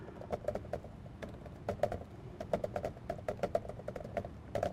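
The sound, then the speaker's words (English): Typing on a computer keyboard: faint, quick, irregular key clicks in short clusters, with brief gaps between runs. “I think I can type in here.”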